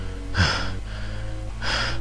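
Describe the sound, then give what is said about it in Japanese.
Heavy panting from a man out of breath after running at full speed, two loud, harsh gasping breaths separated by a short pause. “はあはあ、気持ちが悪い。まず呼吸を整えろバカ。”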